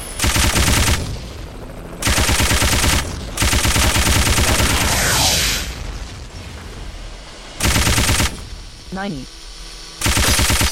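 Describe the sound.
Machine-gun fire in a video game rattles out in several loud, rapid bursts, separated by short gaps filled with a lower rumbling game soundscape.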